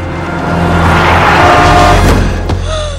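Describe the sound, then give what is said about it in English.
A speeding car roars toward a dog crossing a street, a broad rushing noise swelling steadily and then cut by a sharp thud near the end, with low sustained tones underneath. “Victor watches in horror as a speeding car heads right towards his buddy.”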